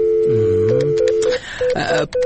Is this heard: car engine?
no